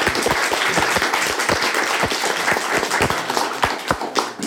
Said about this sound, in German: Ein kleiner Applaus für unseren ersten